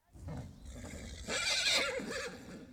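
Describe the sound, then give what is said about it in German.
A horse neighs loudly: one long, quavering whinny with a wavering, bright tone. It swells midway and fades at the end, with no talk over it. “Ein Pferd.”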